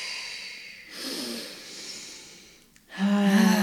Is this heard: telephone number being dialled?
no